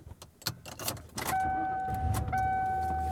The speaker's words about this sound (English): I am driving home.